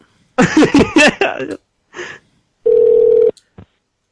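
A telephone call is placed: a quick run of warbling electronic tones, a short gap, then one loud, steady ringing tone that cuts off abruptly, with a brief click after.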